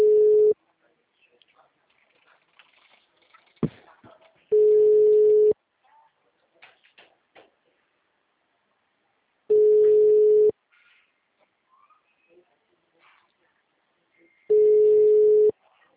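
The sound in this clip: Telephone ringing tone during a phone call: four steady, even tone bursts of about a second each, spaced regularly apart, with faint scattered sounds in between.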